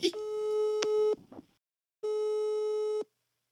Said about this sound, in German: Aber wie immer, wenn ich einen Podcast anrufe, geht er nicht ran.